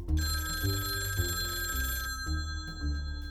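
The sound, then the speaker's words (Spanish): A telephone rings with an incoming call, a bright, sustained electronic ringing tone held over a low, shifting musical bed of notes. “cuando reciben una llamada del FBI”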